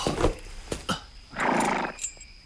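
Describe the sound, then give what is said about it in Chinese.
A tired horse neighing: one long, rough whinny in the middle, with a few shorter bursts before it and a faint one after. “这马儿也累得不行了，我去找些草料给他。”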